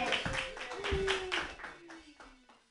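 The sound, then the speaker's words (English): Audience clapping for a performer at an open mic, with a dense patter of claps and a voice calling out over it; the clapping thins and fades toward the end. “Put your hands together, everybody, for Ian Langlands.”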